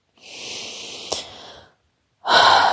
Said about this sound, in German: Atme erst einmal 1-2 Mal tief ein und aus.